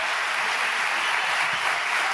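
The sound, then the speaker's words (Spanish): An audience applauds at an arts education event in honour of a visiting musician. The clapping is a steady, dense wash at even volume throughout, with no voices. “la comunidad educativa de IUPA te reconoce con este aplauso”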